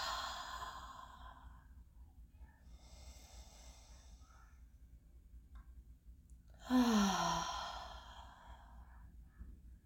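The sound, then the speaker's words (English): Slow, deep breathing in through the nose and out through the mouth during a guided meditation: a few soft, airy breaths spaced apart, the last one louder and ending in a partly voiced sigh. “Just breathe in through your nose and out through your mouth.”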